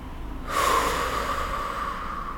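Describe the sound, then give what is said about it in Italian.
A deep inhale through the nose during a guided breathing exercise, a soft hiss of rushing air that starts after about half a second and holds steadily for roughly two seconds, alone with no talk. “Ancora una volta, inspira dal naso, ti espandi, prendi spazio, apri bene il petto.”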